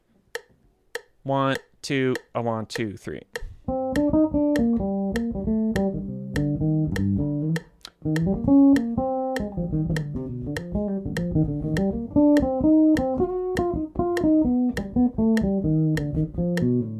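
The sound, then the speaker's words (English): Metronome blasting over a PA in a band room, clicking on beats two and four as a jazz band plays along. After a spoken count-off, sharp, evenly spaced ticks cut steadily through sustained pitched instrumental notes. “the metronome just blasting over the PA in the band room, playing on beat 2 and beat 4, and it sounds like this.”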